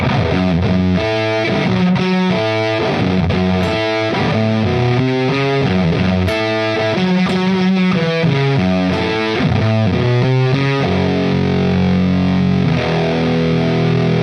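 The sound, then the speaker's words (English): An electric guitar plays through a Fuzz Face fuzz pedal, loud and continuous, with thick, fuzzy, saturated tone on sustained notes and a flowing melodic line and no voices. “That was a fuzz face”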